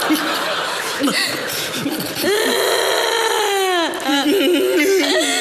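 A man and woman crying and sobbing at a tearful reunion: wavering, wailing voiced cries that swoop up and down in pitch, loud and continuous throughout.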